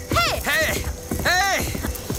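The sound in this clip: Hoofbeats of a horse breaking into a short gallop along a road past waterfalls, a steady run of clopping under loud, repeated shouts from a rider.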